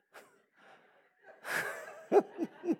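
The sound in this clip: A person out of breath, gasping for air: faint breathy pants, a longer rasping gasp, then three short, sharp gasps in quick succession at the end.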